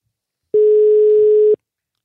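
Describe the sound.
A telephone ringing tone while placing a call: one steady, pure mid-pitched tone lasting about a second, loud and alone, with silence before and after.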